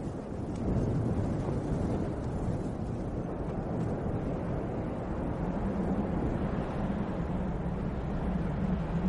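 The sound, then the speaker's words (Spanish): Wind blows steadily in a continuous low, rumbling rush with no pauses and no voices. “El viento.”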